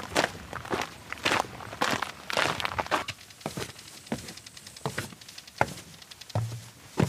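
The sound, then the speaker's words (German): Footsteps walk along a trail toward a castle ruin, about two kilometres from a lookout tower, with a steady rhythm of many fairly soft steps and no talk. “Vom Oberpfalzturm muss man jetzt noch ungefähr 2 Kilometer laufen und dann ist man schon bei der Ruine Weißenstein.”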